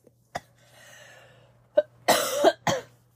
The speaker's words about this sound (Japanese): 多分喋ってないと咳もあんまり出ないんだけど、喋り始めると咳が出ちゃうので